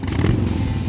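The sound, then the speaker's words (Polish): Motorcycle engine heard in the distance, a brief, low, steady rumble with a faint rattling edge, alone without voices. “Nagle w oddali słychać odgłos motoru.”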